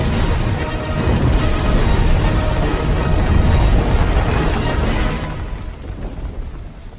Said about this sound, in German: explodierten die Vulkane unter ihnen und eine gewaltige Druckwelle schleuderte sie nach vorn